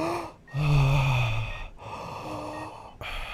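Heavy, strained breathing from a woman in labour: a few long breaths with a low voiced moan, separated by short quiet gaps as she draws air in.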